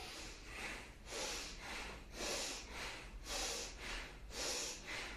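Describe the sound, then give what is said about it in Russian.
Bhastrika bellows breathing with the chest and shoulders during a yoga kriya session: a steady rhythmic run of forceful, breathy in-and-out breaths with soft hissing air bursts, fairly faint, with no talk. “Поэтому мы сейчас бхастрику с плечами дышим грудной клеткой.”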